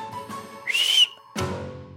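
A dog-training stop whistle blown as one short, straight, high note that holds steady, alone with no voices.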